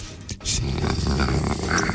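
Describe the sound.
A human voice imitates a terrier's growl: a rough, guttural rumble that begins after a short pause and holds steady for over a second, with no words.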